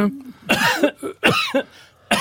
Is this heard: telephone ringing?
no

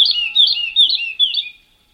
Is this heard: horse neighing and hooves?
no

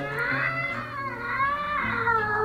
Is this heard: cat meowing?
yes

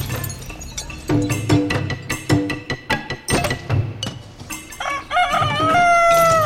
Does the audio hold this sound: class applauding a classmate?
no

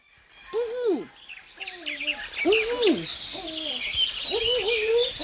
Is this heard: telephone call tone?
no

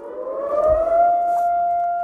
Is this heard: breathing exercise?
no

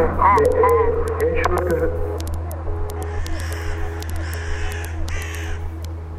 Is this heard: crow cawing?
yes

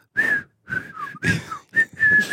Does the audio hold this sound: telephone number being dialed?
no

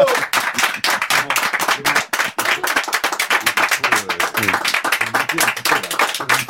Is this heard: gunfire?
no

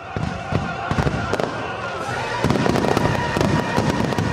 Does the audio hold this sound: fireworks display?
yes

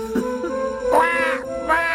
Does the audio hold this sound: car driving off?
no

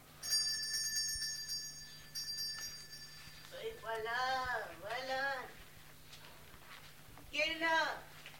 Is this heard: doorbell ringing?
yes

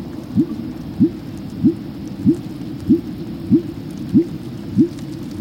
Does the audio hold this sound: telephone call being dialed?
no

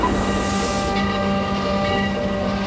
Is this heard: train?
yes

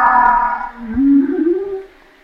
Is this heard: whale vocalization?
yes

